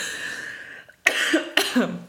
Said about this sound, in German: Da musst du direkt husten.